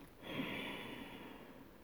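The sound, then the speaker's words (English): A slow nasal exhale, mouth closed, during a guided breathing and mantra meditation; after a brief quiet start comes a soft, airy hiss that stays faint and even until the end, with no talk. “breathing in and out only through the nose, mouth closed. Let's exhale.”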